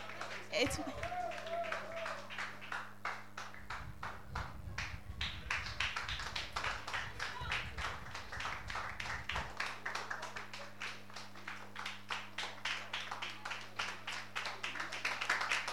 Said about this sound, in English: With a clap offering, please.